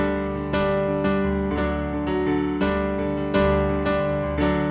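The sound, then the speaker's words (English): A wide open, multi-octave D sus chord on piano. Several notes strike one after another at a steady, unhurried pace, and each new tone rings over the last so they build into a full, lingering resonance. “And the whole thing is this big, wide open, multi-octave D sus chord that if you played it on piano would sound kind of like this.”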